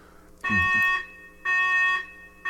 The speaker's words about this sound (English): we were warned there was going to be a fire alarm.